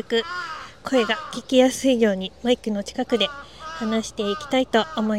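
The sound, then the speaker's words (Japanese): Crows caw overhead in a windy park, their harsh calls mixing with close, steady speech that runs through the whole stretch. “なんかすごいね、頭の上でずっとカラスが鳴いてて、そのカラスの声に負けないようにちょっと声を少し大きめにラジオを撮っております”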